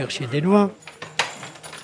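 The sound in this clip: Keys jangle and rattle in a lock as a room door is unlocked. A brief voice comes early, then a sharp metallic click stands out among the jingling.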